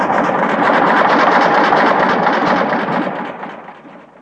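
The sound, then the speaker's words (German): An early open motor car from 1888 rattles and chugs as it drives off. Its dense, steady, rough clatter holds evenly, then fades toward the end. “Alles schlief noch, als das Fahrzeug sich knatternd fortbewegte.”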